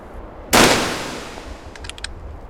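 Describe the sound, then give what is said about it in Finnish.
A single loud Nagant rifle shot fired at a target 150 metres away in light wind, a sharp crack with a long fading tail. “Kohteeseen on 150 metriä. Tämä Nagant ampuu aina ylös, joten tähtään kohteen alaosaan.”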